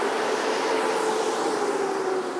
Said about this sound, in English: I've literally just stepped onto the platform, and here's the train, just coming in front of me.